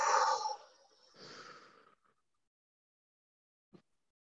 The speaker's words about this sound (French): On va faire une grande inspiration. Et une grande expiration.